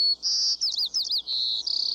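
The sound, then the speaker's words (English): White-crowned sparrow song, a western United States bird: a long, clear high whistle, then quick slurred warbling notes, another sustained high note, and a closing rapid buzzy trill. “The buzzy song seems to float on the air in much of the western United States. At first, you might think the sparrow is just another little brown bird.”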